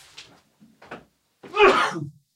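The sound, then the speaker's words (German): A single loud, breathy sneeze bursts out near the end, after a few faint, short sounds. “Achtung, ich muss niesen.”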